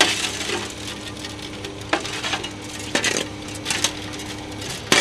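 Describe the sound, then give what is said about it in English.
Shovels scraping and scooping asphalt into a pothole on a main road, asphalt slid from the back of a truck during freeze-thaw repairs; several sharp gritty scrapes and clanks over a steady rough background. “Two men with shovels are scooping asphalt into a hole the size of a large serving plate.”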